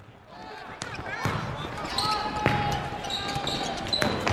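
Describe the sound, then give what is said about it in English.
A basketball bouncing during a basketball game, a few hard, ringing thuds at irregular intervals over a murmur of background noise. “They're playing basketball.”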